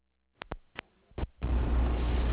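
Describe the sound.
Inside a car, a few sharp knocks and clicks sound in near silence, then a steady, low engine and road rumble starts and continues loud and even to the end.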